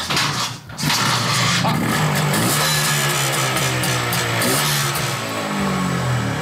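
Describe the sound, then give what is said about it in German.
An old kick-started engine, with fuel tap open and choke set, roars into a loud, steady running thrum after a brief dip near the start, holding an even low rumble to the end. “Na dann, Benzinhahn an, Schock und dann zwei Tritte.”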